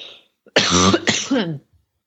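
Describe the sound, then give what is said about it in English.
Two harsh, voiced coughs from a person choking and struggling with allergies follow each other closely. Each burst is rough and throaty with a breathy edge, and a faint breath is heard before them. “Sorry, I'm choking. Yeah, allergies are killing me.”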